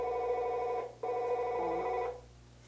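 A telephone rings during an interview, giving two bursts of steady, bright electronic ringing separated by a brief gap. The second burst cuts off abruptly, and no voices are heard.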